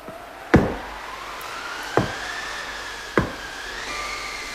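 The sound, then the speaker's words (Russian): Knocking on a door: three sharp, separate knocks spaced roughly a second and a half apart, each crisp and fairly loud. A faint, sustained hum continues underneath. “Кто-то стучится к нам. Слышишь, Краснозорька?”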